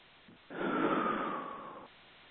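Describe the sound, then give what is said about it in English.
A person takes a deep breath, heard as one long, steady breathy rush of air lasting over a second, with a faint whistling tone running through it, alone against a quiet background. “Deep breath in and out.”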